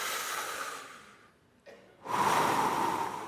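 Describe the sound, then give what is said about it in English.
A group of people takes a deep breath together: a soft, airy rush fades to near silence, then a louder, breathy swell of many breaths rises and lingers. “Would you take a deep breath with me?”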